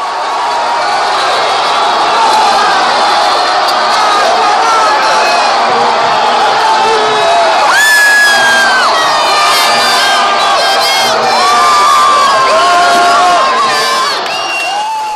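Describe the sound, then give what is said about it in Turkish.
A packed street crowd on Aspicuelta street screams and cheers after Brazil scores an early goal in a football match. The roar of high shouts and whoops stays loud and sustained throughout. “Ve Thiago Silva'nın 7. dakikada attığı golle Aspicuelta sokağı çığlıklarla inledi.”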